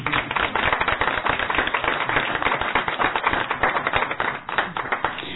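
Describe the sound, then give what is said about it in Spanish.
Audience applause at a cultural centre concert, greeting a song played with a guest percussionist: dense, steady clapping fills the whole clip at an even level with no talk. “Un aplauso, por favor.”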